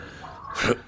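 A man clears his throat in a Bengali Feluda detective audio drama: a short, gruff rasp that swells briefly after a soft voiced lead-in and then stops.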